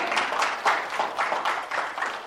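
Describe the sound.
A church audience applauds to welcome a family: a dense, even patter of many hands clapping that holds steady through the short clip.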